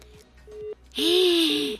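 Telephone line tone after the caller hung up: a few short, steady, low beeps repeat in an even pattern, and a louder, brighter tone overlaps them partway through.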